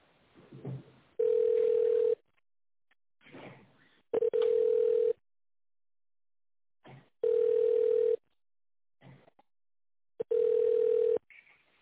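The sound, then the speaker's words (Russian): Telephone ringback tone heard while a business call is transferred to another person. Four steady mid-pitched tones, each lasting about a second, repeat at even intervals with quiet gaps between them that hold faint muffled sounds. “Так, секундочку, сейчас переведу вас.”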